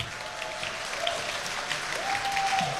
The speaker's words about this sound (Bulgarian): аплодисменти и за БНР и най-вече аплодисменти за българската музика!